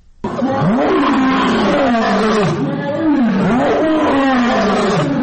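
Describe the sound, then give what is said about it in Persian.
A wild lion roaring: a series of deep, loud, groaning roars that run together with no pause, rising and falling in pitch as each one is drawn out. “این صدای قرش یک شیر است”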